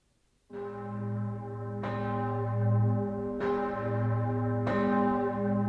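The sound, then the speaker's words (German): An ornate church bell with baroque tuning and a rich, medieval-like timbre tolls four strong, evenly spaced strikes, each leaving a long, sustained humming ring that overlaps the next. “Im Teiltonaufbau ganz barock erinnert ihr Klangbild dennoch an beste mittelalterliche Glocken.”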